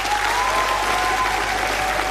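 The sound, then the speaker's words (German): Applause for a party chairwoman re-elected at a party convention: steady, dense clapping from a crowd, sustained at an even level throughout without a break. “Die alte und neue Vorsitzende bekommt starke 85% der Stimmen und auch deutlich mehr Applaus als Pantisano.”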